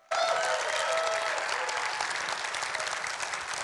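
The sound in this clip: Church audience applause welcoming a guest pastor: clapping bursts in suddenly at full strength and continues as a thick, even wash of many hands, easing slightly toward the end.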